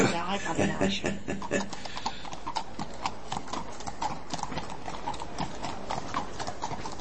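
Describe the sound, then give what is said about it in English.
A horse's hooves clip-clop in a steady, even rhythm, with many crisp beats continuing throughout against a constant background. “So where is it that we're going? On this little horsey?”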